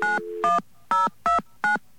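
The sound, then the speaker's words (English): Five touch-tone beeps ring out as a carrier access code is dialed on a telephone keypad. The first tone runs a little longer than the rest, and the others follow in a steady, evenly spaced rhythm. The beeps are clear, the same loudness, and no voices are heard. “Okay, we're going to dial 10297.”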